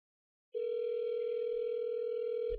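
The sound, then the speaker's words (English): One telephone ring, a steady, even, mid-pitched tone lasting about two seconds after a moment of silence, ending with a soft click. “A lot of ringing.”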